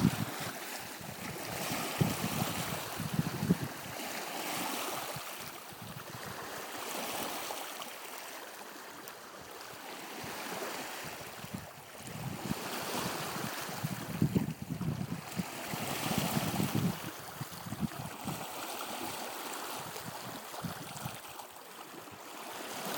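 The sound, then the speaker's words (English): Waves on Lake Superior at McLean Beach, rolling in as a continuous wash of surf and wind. The sound swells and subsides in repeated surges. “So I'm going to shut up just for a minute and let you hear the sound of Lake Superior at McLean Beach.”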